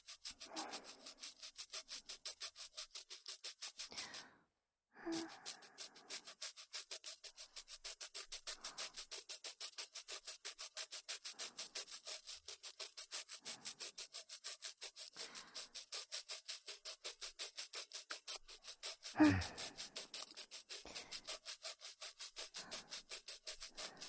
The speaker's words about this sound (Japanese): このくらいの力加減で良さそうだな。 最後でも焦らずゆっくりと磨いていくぞ。 ゴシゴシ。